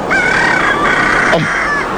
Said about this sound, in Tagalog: Babatian ko na ang pagpanukturok sa mga manok. Kagahon na ginini.